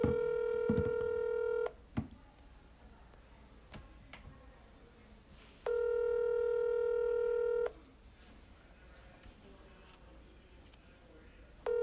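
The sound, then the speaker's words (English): Ringing tone of an outgoing telephone call: two long, buzzy, steady rings separated by a pause of several seconds, over a low background hiss. “So I'm going to go ahead and dial him in.”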